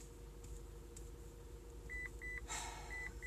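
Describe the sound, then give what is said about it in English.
Electronic beeping, a few short, high, steady-pitched beeps sounding faintly over a constant low hum and background noise, with a brief burst of noise between them. “stop fucking beeping”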